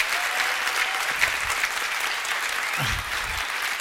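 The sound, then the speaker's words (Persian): Audience applause at a live event: dense, steady clapping from a crowd fills the whole stretch at an even, fairly loud level, with no single clap standing out. “نه پدر اگه منو تشویق میکنین خیلی محکم تشویقش کنین”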